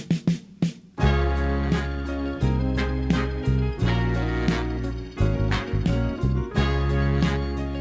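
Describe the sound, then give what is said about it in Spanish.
Intro of a 1973 soul song played from a recording: a brief soft opening, then the full band enters with a deep bass line and a steady, punchy beat that continues loudly to the end. “Esta es la canción número uno y la intro suena así.”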